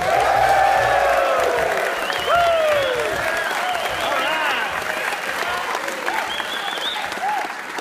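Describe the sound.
A live studio audience at Hanover College applauds a radio show host: loud, continuous clapping with scattered whoops and cheers that gradually thins.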